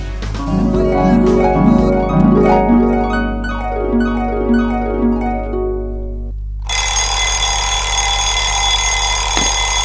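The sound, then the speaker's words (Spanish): An alarm clock goes off, sounding a loud, bright run of repeating ringing tones for about six seconds before cutting abruptly to a burst of broad, hissing noise. “Hace 5 minutos que sonó el despertador.”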